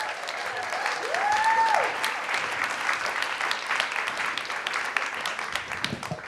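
Audience applause rises at On Air Fest as two guests are brought to the stage: sustained, even clapping from a crowd that continues for the whole six seconds.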